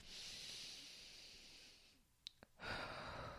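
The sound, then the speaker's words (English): A deep breath taken during a guided mindset and meditation exercise: a long, soft breathy rush, a short pause with a couple of faint clicks, then a second breathy rush. “So I want everybody right now to take a deep breath”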